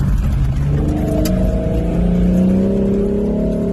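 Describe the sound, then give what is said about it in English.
A Jeep fitted with an AEV snorkel drives at roughly 55 to 60 mph, giving a loud, steady engine and intake roar. Low droning tones rise gently in pitch as it runs. “Wow, that sounds good. That's the AEV snorkel.”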